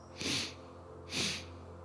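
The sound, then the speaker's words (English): Two short, soft sniffs of breath drawn in through the nose during a guided breathing exercise, each a quick airy rush separated by a brief pause and heard alone against quiet hiss. “And take in 2 sips of breath now through the nose, like this.”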